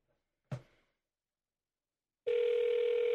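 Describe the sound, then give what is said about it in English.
A telephone call being placed: one short click, then a pause, then a steady, loud, buzzing telephone tone that holds to the end. “It's okay if the microphone picks up the dialing.”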